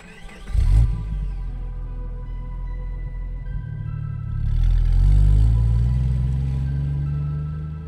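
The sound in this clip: A Jeep's engine rumbles low and steady as it drives off, surging louder about halfway through and holding a fuller, deeper drone to the end.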